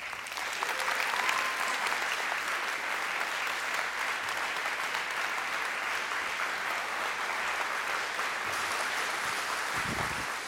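A church audience applauds to welcome guests, a steady, dense wash of clapping that stays even and loud for the whole stretch.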